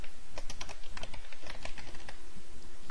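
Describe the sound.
Rapid typing on a computer keyboard while entering a SQL Server connection name, with many quick, crisp key clicks in an uneven, continuous stream.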